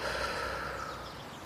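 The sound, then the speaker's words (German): A slow, deep breath during a guided relaxation exercise, a soft airy hiss that is faint and alone and gradually fades away. “Und dann atme mal mit mir einmal tief durch die Nase ein und durch den Mund wieder aus.”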